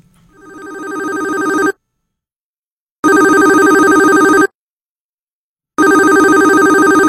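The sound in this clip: A telephone rings for an incoming call in three long, bright electronic ring bursts separated by pauses. The first burst swells up from quiet, and the rings are loud and alone with no talk.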